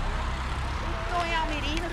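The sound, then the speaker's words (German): A car pulling up and stopping at the roadside gives off a steady low engine and road rumble throughout, with faint tonal whines riding on top. “Am Straßenrand hält ein Auto. Ein älteres Ehepaar steigt aus und holt aus dem Kofferraum große Plastiksäcke.”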